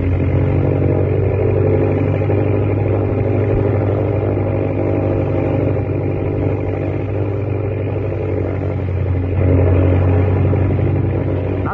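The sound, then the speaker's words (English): An airplane engine drones as the plane flies low through a narrow gorge with the throttle eased down, a loud, steady low roar that barely changes throughout. “Throttle down, slide in. The gorge is so narrow, it's like flying down Wall Street.”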